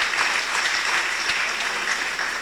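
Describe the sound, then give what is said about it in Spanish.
A crowd applauds a patron saint at a religious gathering, with dense, even clapping that continues at a steady loudness throughout. No voices are heard. “un aplauso de patrono, hermanos y hermanas”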